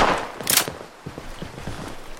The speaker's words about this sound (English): Note to self shotguns, not so good at distance.